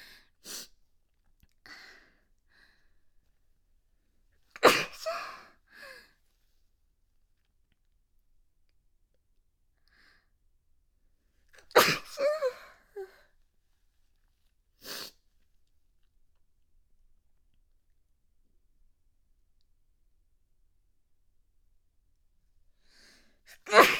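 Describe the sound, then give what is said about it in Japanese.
A hoarse, raspy sneeze bursts out among a few other short breathy snorts and clicks, separated by long quiet gaps; the bursts are sharp and brief against near silence. “今なんかすごくすごくあのダミ声みたいなくしゃみが出た”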